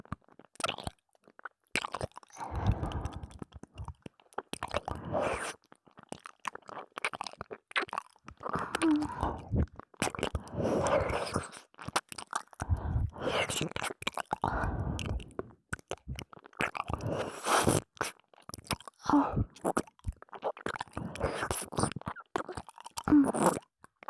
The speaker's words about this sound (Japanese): バイノーラルだから舌が動く音までしっかり聞こえる。